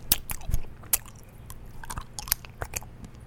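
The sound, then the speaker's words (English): Biting and chewing on a caramel apple sucker: many wet, crunchy clicks and smacks in an irregular rhythm, with no talking. “I'm eating one of those, like, caramel apple suckers, so.”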